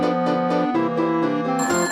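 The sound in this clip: A telephone ringing with an electronic ringtone that plays a loud, continuous melody of stepping pitches, with no voices present.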